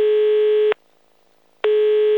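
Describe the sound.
Telephone ringback tone heard while a call is being placed: a steady electronic tone cuts off, pauses for about a second, then resumes, with no voices.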